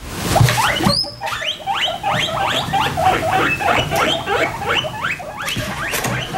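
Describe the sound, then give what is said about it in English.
Guinea pigs, the household pet rodents, squeaking in a long run of rapid, high-pitched chirps. The whistling squeaks are repeated in quick, fairly even rhythm and fairly loud, with no voices. “Do you know what that noise is? Some of you might find it endearing or cute, others perhaps not, but it is unmistakably the sound of the popular household pets, guinea pigs.”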